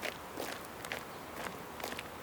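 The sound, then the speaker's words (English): Quick footsteps of someone walking fast, a steady series of crisp, evenly spaced steps at a brisk pace. “You're walking too fast”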